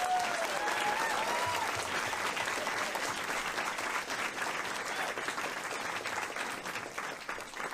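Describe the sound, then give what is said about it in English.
Audience applause welcoming a speaker at a talk in San Francisco: dense, sustained clapping from a crowd, steady and warm throughout, easing only slightly toward the end. “So please give it up for Silvia Federici.”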